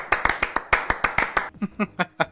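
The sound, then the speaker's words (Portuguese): One person clapping hands in a brisk run of sharp, evenly spaced claps, followed by a few short voiced sounds. “Bateu uma salva de palma aqui pro profissional.”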